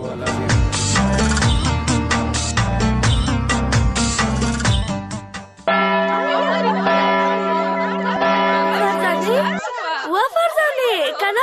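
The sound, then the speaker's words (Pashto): A school recess bell sounds loudly: dense, rhythmic ringing chimes that give way to sustained, ringing tones and wavering high notes, continuing throughout without pause. “دا مې ځکه وویل چې د تفریح زنګ دې وانورېده.”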